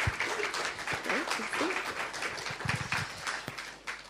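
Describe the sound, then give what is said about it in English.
Audience applause at a live interview event: a dense, steady wash of many hands clapping that holds for about four seconds and dips slightly near the end. “So, one more round of applause.”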